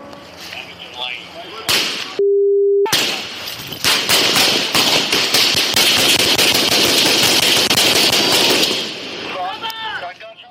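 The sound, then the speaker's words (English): A gunfire exchange between a suspect and police officers: loud, rapid shots crack in dense overlapping bursts, dozens in all. Voices are heard before and after the shooting, and a brief steady tone sounds near the start. “And what you just heard there were dozens of shots. We know that Raleigh police fired at least more than 20 shots.”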